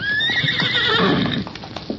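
A pony neighs in a loud, high, wavering whinny that falls in pitch and fades, followed by scattered hoof clops and shuffling. No voices.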